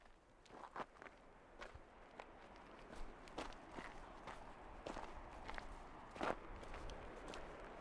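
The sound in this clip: Footsteps of a walker outdoors heading toward a mountain summit: a faint, steady series of many soft footfalls, each a brief scuffing tap, with no voices.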